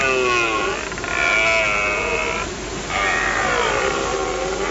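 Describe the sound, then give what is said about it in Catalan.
A male deer roars its rutting bellow to attract females, a few long, groaning calls rich in harmonics separated by short pauses. “És un cèrvol. No sé si us havíeu preguntat mai quin so fan, però és aquesta brama i només la fan en un moment molt especial. Els cèrvols mascles bramen així per atraure les femelles”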